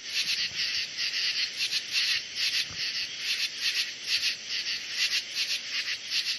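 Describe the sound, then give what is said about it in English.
Insects chirp in a backyard on a summer night, a shrill, high, pulsing chorus of many rapid repeated trills that carries on steadily for the whole stretch with no voices. “During the months of summer, the evenings and nights are alive with the sounds of insects.”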